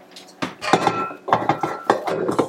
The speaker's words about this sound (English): So this piece just goes on here. I'm going to just put the bowl in there.